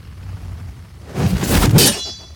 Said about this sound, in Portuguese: Centímetros antes do golpe fatal, a espada encontrou outra lâmina vinda na direção oposta, ricocheteando e escapando da minha mão com o impacto.